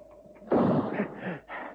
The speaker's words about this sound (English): I have the tray in the sights of the rifle. The orderly moves back. It is clear. Yes, and now to make quite sure.